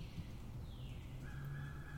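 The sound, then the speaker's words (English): A male northern cardinal calls in a few drawn-out whistled notes, one sliding downward, over a steady low hum. “I can hear that male cardinal calling.”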